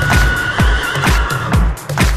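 A horse on a ranch whinnies in a loud run of short, repeated bursts, each dropping quickly in pitch, heard alone with no talk.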